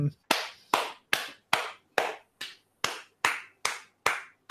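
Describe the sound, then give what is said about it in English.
One person clapping their hands: eleven sharp, evenly spaced claps, each with a short decaying tail, crisp and clear with nothing else heard. “The sound of one hand clapping. My hands, actually.”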